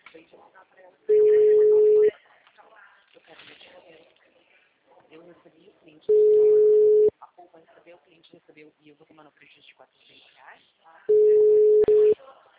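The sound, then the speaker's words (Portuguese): A telephone call is placed and rings out with three steady, mid-pitched ringback tones, each lasting about a second and spaced about five seconds apart. Voices talk between the tones. “deixa eu só ligar para o meu cliente aqui. Ele não está me respondendo.”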